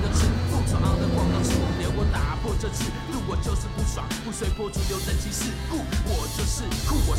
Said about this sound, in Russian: Ребят заталкивают в машину и увозят.